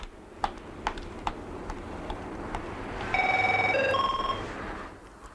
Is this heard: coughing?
no